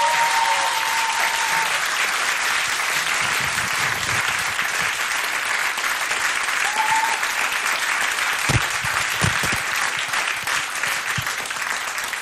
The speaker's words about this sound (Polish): Brawa dla nich, bardzo proszę.